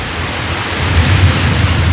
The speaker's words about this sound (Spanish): Esos son los truenos que se oían esta mañana.